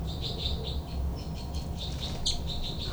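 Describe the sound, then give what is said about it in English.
Two birds fight with threat calls: many short, high, harsh chirps repeat in quick, uneven bursts over a steady low background hiss, with no voices. “Both birds fight by threat call”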